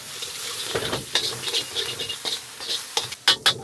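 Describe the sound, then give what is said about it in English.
Ginger, green onions, star anise and Sichuan peppercorns being stirred in a pan, with soft scraping, light patter and faint sizzling, ending in a few sharper clicks of the utensil against the pan. “We are just gonna stir that just for a minute.”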